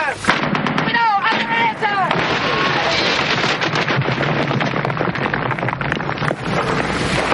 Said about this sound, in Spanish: Hasta que disparan un gran proyectil y destrozan la protección de los soldados caribeños.